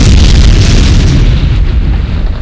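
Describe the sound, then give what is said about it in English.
A loud explosion sound effect: a deep, heavy boom with broad rumbling noise that lingers and slowly fades. “I explode. I explode.”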